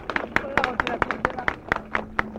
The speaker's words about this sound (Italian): fate un bel applauso, no?